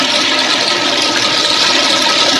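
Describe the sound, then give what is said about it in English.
A toilet flushes with a loud, steady rush of water, a broad hissing roar that holds throughout. “Every time your father-in-law irritates you and you get upset, go stick your head in the toilet and flush.”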